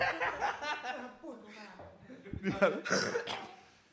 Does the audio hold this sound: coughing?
yes